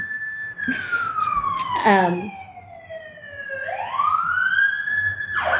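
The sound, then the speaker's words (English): An emergency vehicle's siren passes outside, a loud wailing tone that glides steadily downward, then sweeps back up, with a brief burst of other noise midway. “Sorry for the sirens.”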